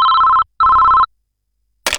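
A telephone rings for an incoming call, two loud, steady electronic ring bursts separated by a short gap, followed by silence and then a brief noisy burst.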